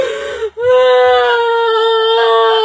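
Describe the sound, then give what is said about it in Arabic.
A person crying during a ruqyah exorcism session: a loud, high-pitched wailing voice that breaks off briefly near the start, then holds a long, steady sobbing cry. “لماذا تبكي الآن؟”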